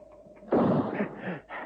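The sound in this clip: A single rifle shot, a sharp blast that breaks out of near silence and trails into a rumbling, uneven decay, fairly faint overall.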